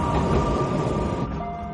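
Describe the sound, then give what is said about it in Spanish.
A subway train passes a metro platform, giving a steady, loud rumbling roar with a sustained whining tone running through it. The roar eases slightly near the end, and no voices are heard. “Espera en un andén. Un metro pasa.”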